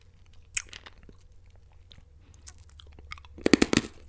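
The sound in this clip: Crunching of a hard lemon pastille candy being bitten: a few isolated sharp crunches, then a quick burst of loud, brittle crunches near the end, alone with no talk.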